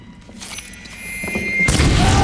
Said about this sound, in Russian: Взрыв, падают убитые.